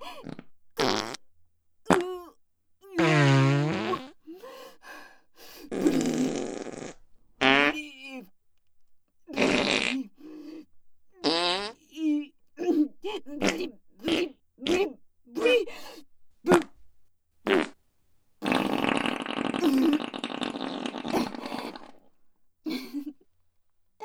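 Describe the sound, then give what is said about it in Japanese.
A song performed with farts: many short bursts in a halting, rhythmic sequence, some pitched and wavering like sung notes, others raspy and sputtering, with a long noisy blast near the end. “奏でるおなら歌”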